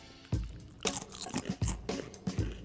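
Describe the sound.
Ordinary Ruffles potato chips crunch between the teeth in a series of sharp, irregular crackling bites, several crisp bursts with softer chewing noise between them and no talk.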